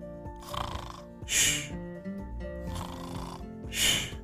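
Snoring from Thomas the Tank Engine as he falls asleep in a story: two snore cycles, each a softer breath followed by a louder rasping one, over sustained background music.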